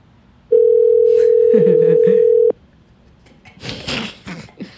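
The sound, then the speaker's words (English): A single outgoing-call ringing tone on a telephone line, one steady, level, low-pitched tone lasting about two seconds. It ends abruptly and is followed by quiet, faint rustling and breathy noises. “Let's see if Mark answers.”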